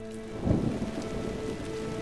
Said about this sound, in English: The rain still pouring down, Hobie burst into his quarters.